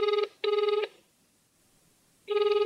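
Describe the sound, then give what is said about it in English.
Ringback tone of an outgoing phone call: two short, buzzy trilling bursts in quick succession, then a pause of over a second before a third burst starts, each burst even and fairly loud, with no talk. “We should call John. Let's call John, yes.”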